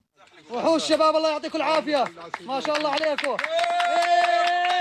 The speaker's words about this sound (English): Rescuers cheered as they pulled a three-year-old boy from under the debris of his home.